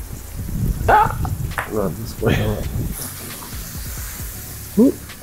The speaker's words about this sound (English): we're going to throw these onions in here with the pork chop, just to add the flavor